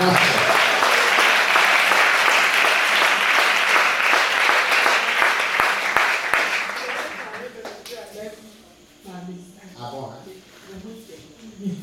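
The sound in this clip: Audience applause and cheering at a religious retreat gathering, a dense, loud wash of clapping that holds steady for about six seconds before fading, followed by quieter crowd noise and voices.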